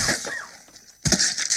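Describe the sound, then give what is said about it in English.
A gory crunch from The Toxic Avenger, as a gym weight stack smashes down on a man's head. A quieter noisy stretch is followed by a sudden loud burst of wet, gritty crushing that lingers to the end. “Tox lets go of the stack as the stack comes down, smashing this guy's head with a disgusting, disgusting sound”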